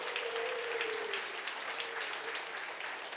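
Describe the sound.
Audience applause at a men's breakfast gathering, honoring the women serving the meal; a steady, dense patter of clapping hands that holds evenly and fairly softly throughout.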